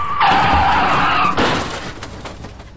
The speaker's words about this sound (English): Why did you swerve? We might have been killed.